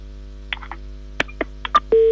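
Telephone keypad dialing tones sound as a call is placed: a quick, irregular run of short pitched beeps, then a sustained steady tone.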